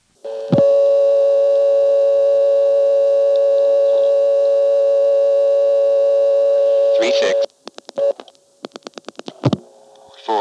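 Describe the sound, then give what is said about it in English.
A telephone exchange supervision test tone sounds after dialing 99: a steady, continuous, buzzy tone holds for several seconds, then breaks off into a rapid burst of clicks and short tone fragments. “dialing 99 to get the supervision test.”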